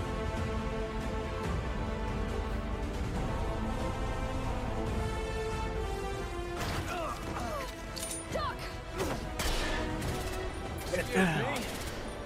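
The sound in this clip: Pistol gunfire in a video game: a few sharp cracks late in the stretch, set over steady tonal game music and voices.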